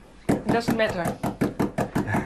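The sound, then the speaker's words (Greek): A woman at a dementia care village strikes her hand on the counter in front of her: many even, solid knocks in quick, steady rhythm, mixed with a voice. “Όπως η κυρία που ενίοτε χτυπάει το χέρι της στον πάγκο μπροστά της.”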